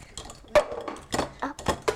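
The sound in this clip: A plate being handled among dishes, clinking and clattering against other crockery in a few sharp knocks and rattles of uneven rhythm.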